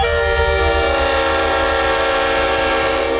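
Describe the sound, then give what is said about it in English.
A Leslie S5T locomotive air horn, a musical multi-note train horn known for its very strong sound, blares as one loud, sustained chord that holds steady from start to finish. “They call it the king of train horns due to its very strong sound. I'll play it to you one more time. Maybe two more times.”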